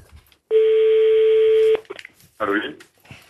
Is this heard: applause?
no